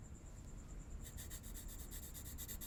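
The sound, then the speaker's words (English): Pencil scratching across paper while sketching, faint rhythmic strokes that start after a second of near silence, with a thin steady high tone throughout. “Would I ask you to pose for me if I didn't enjoy sketching you?”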